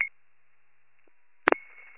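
Electronic telephone dialing tones on a line being called: a brief beep, then two sharp bursts followed by a steady, sustained tone, fairly faint and with no talk over it.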